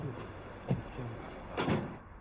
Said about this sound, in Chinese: 随即关上了门